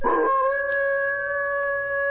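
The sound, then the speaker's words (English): A wolf howling alone: one long, sustained, steady tone with clear harmonics that holds its pitch from start to finish. “That's not a fox, that's a wolf.”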